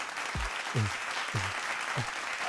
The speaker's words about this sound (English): let me give another round of applause for all our nurses